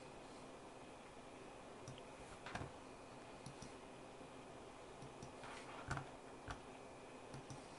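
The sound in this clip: Typing on a computer keyboard: faint, sparse keystroke clicks scattered irregularly over a quiet background, with a few slightly louder taps clustered near the middle and toward the end.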